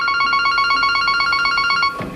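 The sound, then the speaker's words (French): An office telephone ringing in a town-centre real estate agency, a bright electronic ring pulsing rapidly and evenly at a steady pitch, loud and alone, cutting off near the end. “Dans cette agence immobilière du centre-ville, le téléphone ne cesse de sonner.”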